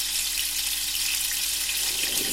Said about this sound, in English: now those are cooking, I'm just going to bring the kettle back to the boil.